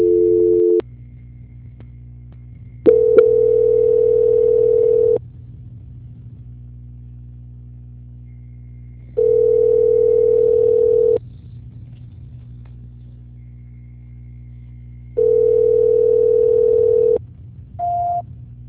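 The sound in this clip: Telephone line tones while a call is transferred: three steady, mid-pitched beeps of about two seconds each, spaced several seconds apart over a low hum, followed by a brief higher tone.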